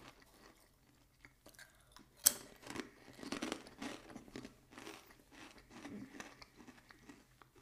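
Chewing of crunchy ring-shaped crisps at a chips tasting: one sharp crunch stands out, followed by many quieter crunches and steady mastication, faint overall.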